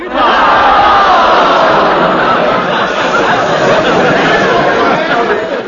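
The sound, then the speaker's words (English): An audience entertained at Buffalo Bill's Wild West Show makes a loud, continuous crowd roar of shouts, yells and chatter that holds steady throughout. “I reckon I can hear the sound of an audience being entertained by Buffalo Bill's Wild West Show.”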